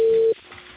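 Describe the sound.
A single steady telephone ringing tone on an outgoing call lasts about a third of a second, then cuts off to quiet line hiss.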